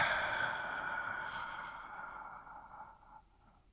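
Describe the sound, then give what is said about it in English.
A deep breath drawn out as a long, soft, breathy exhale that slowly fades away over about three seconds. “And if you're ready, Let's take a deep breath.”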